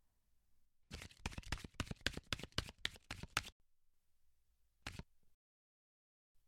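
Playing cards riffled during a party king game: a rapid run of crisp flicks lasting over two seconds, then a pause and a single short card snap, with no talk.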